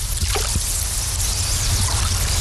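The Clearwater River in Kamiah, Idaho flows with a steady, full rushing wash that holds an even level throughout, with faint trickles above it.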